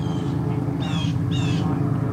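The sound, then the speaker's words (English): Blue jays and gulls calling near a fishing boat as they wait for fish scraps: two harsh, nasal calls in quick succession over a steady low droning background. “Now, you can probably hear some bird sounds. Those are blue jays, and then there are some gulls around because they're all complaining”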